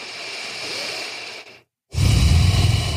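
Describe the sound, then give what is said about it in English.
Breathing in and out through the nose during a relaxation exercise, with hands resting on the belly: a long, soft, airy breath, a short silent pause, then a louder, rougher breath. No one talks. “Just breathe in and out through your nose for 3 breaths.”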